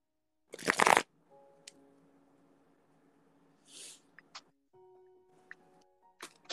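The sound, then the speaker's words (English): Playing cards pulled and shuffled for someone, beginning with one loud, dense riffling burst, then scattered soft flicks and taps over a faint steady hum. “Pull some cards for him.”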